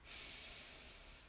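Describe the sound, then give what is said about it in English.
A deep breath drawn in, one long, soft, airy inhale with a hissing quality that stays steady and fairly faint throughout, with no other sound. “And then next, we take a deep breath in.”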